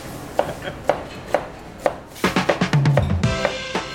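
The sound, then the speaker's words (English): A knife slices onions with crisp, distinct cuts. Four evenly spaced chops come first, then a quicker run of cuts follows. “So shall I continue slicing? Yeah, let's see. I want to tear up.”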